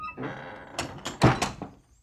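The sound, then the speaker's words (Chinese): A door is shut with a dull wooden thunk amid a few quick knocks and rattles, the heaviest hit falling near the middle before things go quiet. “阿姨关上门”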